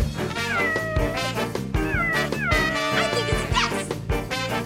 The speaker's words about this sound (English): Have you by any chance lost your kitty?